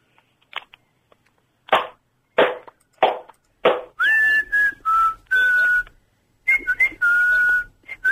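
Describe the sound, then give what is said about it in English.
Loud, clear whistling sounds as a series of several bright notes, some held and some clipped short, after a few sharp hand claps at the start. “I think the whistling's more irritating.”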